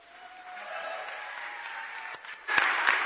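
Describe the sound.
Applause from a church audience welcoming two guest speakers: steady, dense clapping that swells to a louder burst near the end.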